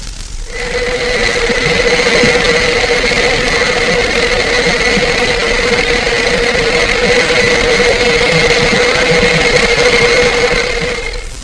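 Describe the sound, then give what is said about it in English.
Electric motors run with a loud, continuous hum and steady tonal whine. The drone holds unchanged throughout, with no voices. “Second, the electric motors, as in the following example.”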